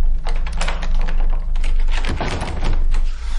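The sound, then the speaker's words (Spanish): A padlock is fitted onto a patio door, making a loud, dense run of small metallic clicks, knocks and rattles. “El dueño pone un candado en la puerta del patio.”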